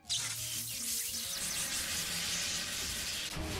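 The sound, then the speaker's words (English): Splash attack sound effect from a monster-battle video game: a loud, steady rush of splashing water that runs for about three seconds, then cuts off. “Photoroizen used Splash.”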